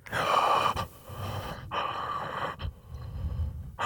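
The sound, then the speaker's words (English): Slow breathing through the mouth while the nose is pinched shut: a few long, breathy, gasping inhales and exhales follow one another at a steady pace, with no talk. “Breathe through your mouth slowly.”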